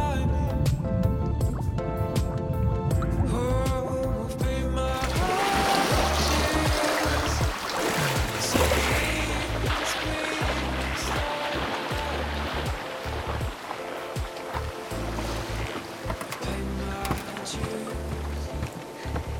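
Splashing, churning water as a person is suddenly dragged in, a dense, continuous wash of noise that lasts many seconds after a tonal opening passage.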